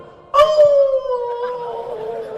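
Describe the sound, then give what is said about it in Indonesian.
A dog howls in a single sustained, tonal wail that starts abruptly, then slowly sinks in pitch and fades over about two seconds. “Setiap azan berkumandang pasti anjing berbunyi kan? Oh, kenapa anjing berbunyi?”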